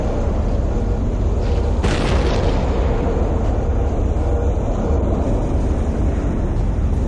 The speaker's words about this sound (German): Der Vulkan ist ja immer noch aktiv. Die Rauchwolken verstopfen unsere Triebwerke.